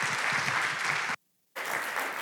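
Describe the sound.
A morning church audience applauds to welcome a guest speaker to the stage: dense, steady clapping cuts out abruptly for about half a second, then resumes at the same strength.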